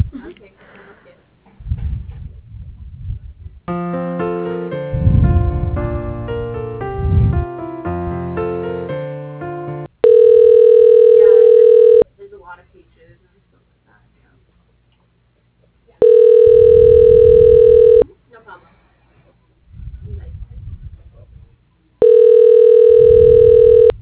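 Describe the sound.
Telephone line tones as a call is transferred to voicemail: three steady, loud electronic tone bursts of about two seconds each, separated by quieter pauses, preceded by a stretch of shifting, melodic electronic tones.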